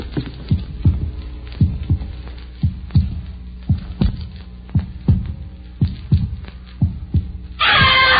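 A human heartbeat heard through a stethoscope, pulse slightly fast: a steady train of low, dull thumps at an even rhythm that ends in a sudden burst of rustling hiss.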